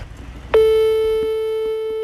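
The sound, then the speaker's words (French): An outgoing telephone call produces a single steady electronic line tone. The tone starts sharply after a short, quiet stretch and holds at an even pitch and loudness to the end. “Je sors mon téléphone et j'appelle celui qui m'a donné ma chance, quand même.”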